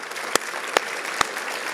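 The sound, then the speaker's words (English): Audience applause at a church service welcoming visiting coaches: a steady wash of clapping with three sharp, louder claps standing out at even intervals. “could we just give them a hand and a big welcome for being here?”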